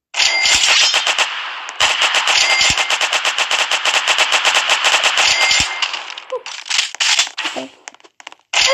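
A video game weapon fires rapid automatic gunfire in long, loud, sustained bursts broken by short gaps, then a few scattered shots and sharp crackles toward the end.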